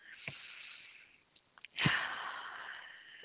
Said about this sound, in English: when you're ready, to just take a deep breath